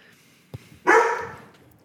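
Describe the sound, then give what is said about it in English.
A dog barks once, a single loud, harsh bark that trails off over about half a second, in a shed. “He'll calm the dog.”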